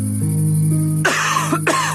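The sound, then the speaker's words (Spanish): A person coughs twice, hard and rasping, once about midway and again shortly after. A steady low tonal bed runs underneath. “Una tos puede convertir tus sueños en la peor pesadilla.”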